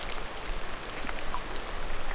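Rain pours down steadily during an outdoor field recording in damp, humid weather, giving a dense, even hiss of countless drops with no pauses and no voices.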